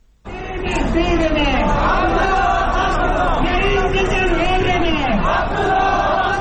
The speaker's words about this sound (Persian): هزاران تن از طرفداران دست انتخاباتی عبدالله عبدالله روز جمعه در کابل راهپیمایی کرده و خواهان این شدند تا کمیسیون مستقل انتخابات آرای را که آنها تقلبی و جعلی می‌خوانند باطل کند.